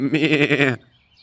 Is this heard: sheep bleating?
yes

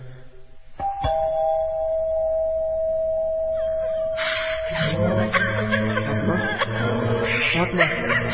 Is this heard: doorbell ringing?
yes

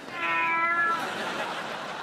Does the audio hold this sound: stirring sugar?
no

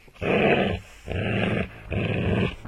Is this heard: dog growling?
yes

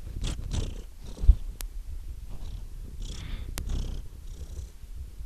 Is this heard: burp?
no

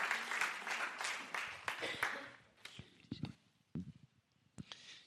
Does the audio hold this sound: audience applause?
yes

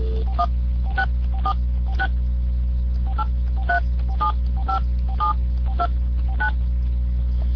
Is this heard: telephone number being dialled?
yes

